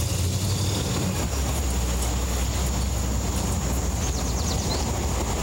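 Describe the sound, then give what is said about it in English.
Walt's car pulls off the highway into his service station, giving a steady low engine rumble with a constant droning hum and a faint high whine, with no voices. “Walt pulls off the highway into his service station.”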